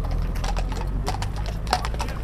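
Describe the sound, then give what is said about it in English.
Hooves of four horses clip-clop on a street during a parade on horseback commemorating 1916, with quick irregular clops over a steady low background rumble. “We have a couple of bands here just about to pass me. And four horses, may I add.”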